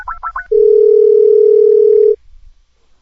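Telephone tones on an outgoing call: three quick chirping beeps, then a single loud, steady mid-pitched tone held for about a second and a half before it cuts off.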